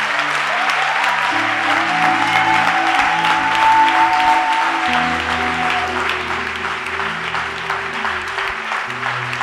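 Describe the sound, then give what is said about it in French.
Applause from a church audience acclaiming during a worship service: dense, steady clapping that fills the whole clip, over sustained low keyboard chords, with no clear talk. “Est-ce qu'on peut acclamer le Seigneur ce plaît?”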